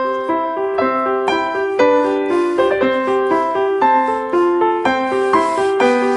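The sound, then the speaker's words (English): Solo piano played by an eight-year-old child after a year of lessons: a steady succession of many distinct notes and chords at a moderate pace, each onset clear and ringing briefly before the next. “I want to remind you of what a seven-year-old child sounds like when he plays the piano.”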